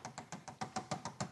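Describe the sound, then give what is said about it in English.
Knuckles rapping on a closed betting window: a faint, evenly spaced series of about ten quick knocks with no voices. “Oh, darn it. The window is closed. I'll rap on it.”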